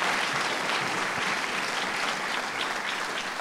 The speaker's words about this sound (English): I want you to put your hands together.